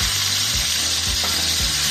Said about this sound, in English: All right, so our chicken's all cooked. We're gonna add a little bit more olive oil.